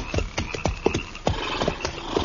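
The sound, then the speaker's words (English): Hooves clip-clop as horses are pulled up on a dry prairie. Many uneven hoofbeats sound in a quick, irregular rhythm, loud and steady throughout, with no talking. “Hold it. Pull up them horses.”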